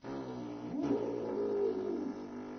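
A person imitates a dingo's howl with the lips, a technique used when playing the didgeridoo: a low, hooting, wolf-like tone that swells after a brief onset and holds steady before tapering off.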